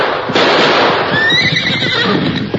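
A horse whinnies loudly, a single drawn-out high neigh standing out over broad rushing noise, with no voices.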